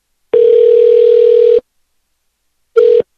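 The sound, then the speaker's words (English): A telephone ringback tone sounds while a call goes out. One long, loud, steady tone is followed by silence and then the start of a second tone, which cuts off quickly. “Call back. See if they pick up.”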